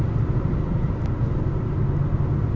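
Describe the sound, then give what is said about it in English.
Steady road rumble of a car on a drive from Newport, Oregon to Olympia, Washington: a loud, continuous low drone that holds an even level throughout, with no voices. “I just started a 3-hour, 52-minute drive from Newport, Oregon to Olympia, Washington.”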